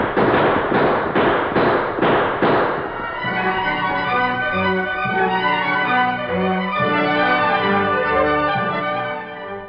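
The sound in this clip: Gunshots crack out in a radio-drama gunfight, a rapid run of several loud, sharp shots in quick succession, followed by a stretch of sustained music.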